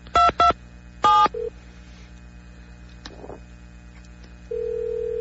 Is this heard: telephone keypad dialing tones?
yes